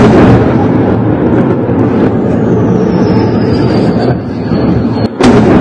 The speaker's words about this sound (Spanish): Este es el sonido de los ataques de Israel a Irán.